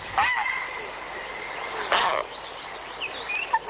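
A barn owl calls with two long, harsh, hissing screeches, a short faint call following near the end. Some thin, high tonal chirps run along between the screeches.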